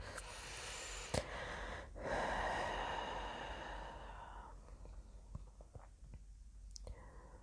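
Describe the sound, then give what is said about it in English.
Deep breathing during a guided meditation, in through the nose and out through the mouth: a slow, soft breath with a broad airy hiss that swells and then fades, quiet and unhurried. “And one last time, in through the nose and out through the mouth.”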